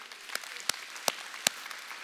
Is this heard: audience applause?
yes

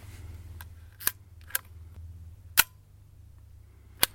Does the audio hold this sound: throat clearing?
no

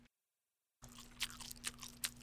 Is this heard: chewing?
yes

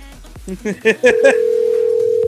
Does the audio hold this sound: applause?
no

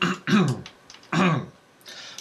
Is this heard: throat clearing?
yes

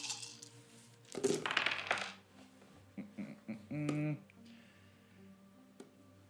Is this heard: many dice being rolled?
yes

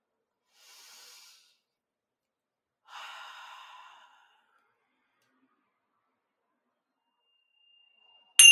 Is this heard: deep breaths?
yes

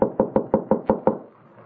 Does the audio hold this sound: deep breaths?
no

